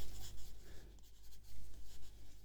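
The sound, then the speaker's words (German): A pen scratches on paper as something is written down by hand, making a faint, rhythmic run of short, dry strokes with brief pauses between words and no talk. “Äh, warte mal, ich schreibe mal eben auf hier tanzende Zebras.”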